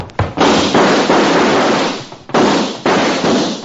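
Gunshot sound effects in a western radio drama: a few sharp, loud blasts, each followed by a long, rumbling ringing decay. A short gap comes after the first cluster of shots, and more blasts follow.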